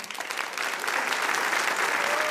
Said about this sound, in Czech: Takhle ti tleská bohumínská K3.